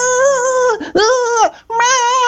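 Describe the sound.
A voice imitates children crying and shouting on a beach, with three loud, drawn-out wailing cries separated by short breaks.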